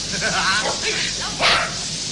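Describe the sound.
A dog barks once on command: a short, loud burst that rises out of a steady hiss, with fainter, softer sounds before it.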